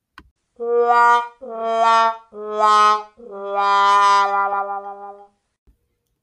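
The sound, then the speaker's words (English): A 'wah wah wah' sound effect plays as brassy, wavering notes that step downward, the last one long and wobbling before it fades out. “I have always wanted to use that wah, wah, wah sound effect.”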